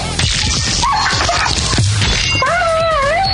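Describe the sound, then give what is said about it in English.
A dog yelping and whimpering: high, wavering whines that rise and fall in pitch, mixed with short, sharp yips over a dense, noisy background. “Actually, I'll just play that for the people. This is how Roxy's dog died, everybody.”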